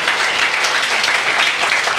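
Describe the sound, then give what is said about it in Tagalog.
A church audience claps in praise during a worship service, producing loud, dense and continuous applause from many hands without a break. “Pwede bang palakpakan natin ang ating Panginoon?”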